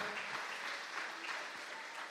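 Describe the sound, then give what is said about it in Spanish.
An audience applauds during a church service with steady, dense clapping that stays fairly faint and even throughout, with no talk over it. “Le podemos dar un aplauso al Señor esta mañana, que es digno de toda la gloria, de toda la honra.”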